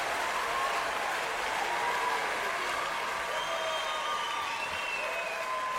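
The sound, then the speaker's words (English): Audience applause and clapping for a comedian guest, a dense, even wash of hand claps that continues steadily at a moderate level for several seconds. “We are clapping it up for Miss Pat.”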